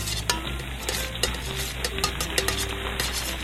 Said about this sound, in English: Melt a lump of butter. There, that's done. Now I'll stir it a bit.